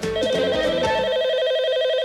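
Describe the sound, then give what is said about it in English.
An electronic telephone ring from the opening gag of a 1990s animated comedy, where the phone rings as a man wakes up. It is a rapid, steady warbling trill that runs without pause from near the start to the end, with some music at the beginning. “And they always had this opening gag where he would answer the phone when he woke up in the morning.”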